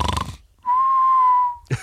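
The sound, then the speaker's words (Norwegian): A voice imitates the whistling snore of someone with sleep apnea: one sustained, steady mid-pitched whistle held for about a second, set between bursts of talk. “Så han snorket sånn”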